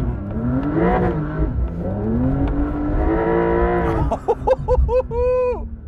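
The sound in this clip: Car engine revving hard while driving through sand dunes with stability control switched off, a steady, loud droning tone that breaks near the end into several short, sharp throttle blips.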